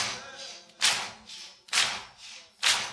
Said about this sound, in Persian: این دست ها بیاد بالا خوب این دست همه بیاد بالا سینه بزنیم برای آقا